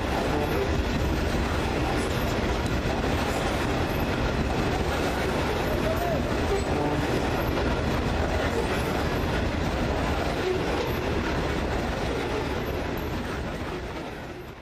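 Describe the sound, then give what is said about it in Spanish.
A long freight train loaded with coal from a mine in La Guajira rolls past in a steady, loud rumble with continuous rail clatter, fading slightly at the very end. “El tren del Cerrejón cargado de carbón.”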